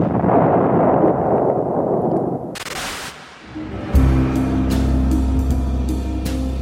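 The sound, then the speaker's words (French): Distant English artillery cannons fire during the 1956 Suez fighting at Port Said, heard from off the Egyptian coast: a thick rumbling roar, a sudden booming blast, then a heavy low drone with sharp cracks on top. “Nous sommes en vue des côtes égyptiennes et déjà au loin, nous entendons tonner les canons anglais.”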